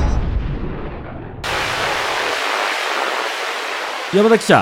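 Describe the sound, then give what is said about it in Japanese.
A huge amount of beans pours down from the sky with an abrupt, steady roaring hiss that starts suddenly after a low rumble and continues evenly, and a brief vocal cry breaks in at the end. “うわあ、空からすごい量の豆が降り注いでいます。”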